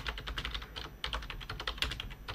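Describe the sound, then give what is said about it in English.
Rapid typing on a computer keyboard: a dense, steady run of many crisp clicking keystrokes with no voices. “just here typing. So I don't forget what that little thought process was.”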